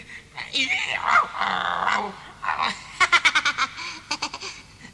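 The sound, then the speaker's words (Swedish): A boy in a tiger mask growls like a tiger, his voice imitating the animal with rough snarling sounds, followed by rapid pulsing bursts like laughter. “Titta, Tintin, Tintin, där bakom dig. En tiger.”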